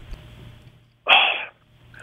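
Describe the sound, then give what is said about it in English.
A single sharp sneeze bursts out from a man during a sports discussion, a brief loud blast after near silence, followed by the faint start of another sound. “I got to sneeze.”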